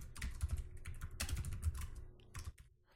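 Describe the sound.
Someone typing code on a computer keyboard, a rapid, continuous run of light plastic key clicks with irregular rhythm and no pauses.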